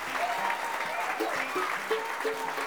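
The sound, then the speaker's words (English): Audience applause welcoming the newest member of a bluegrass band on stage: dense, steady clapping at an even level throughout, with faint voices mixed in. “I'd like for you to put your hands together and give a nice warm welcome to the newest member of the Seldom Seen, Mr. Ricky Simpkins.”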